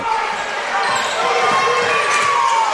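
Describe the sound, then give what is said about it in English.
A basketball dribbled on a court during a game, repeated low thuds of the bouncing ball under a steady din of crowd noise. “We're dribbling around, trying to get open.”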